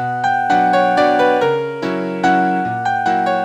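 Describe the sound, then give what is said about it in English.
Synthesized MIDI piano plays a downloaded Chopin piece through a web browser: a steady flow of sustained chords and melody notes with crisp attacks, moderately loud, with no voices. “Okay, that sounds like a MIDI piano.”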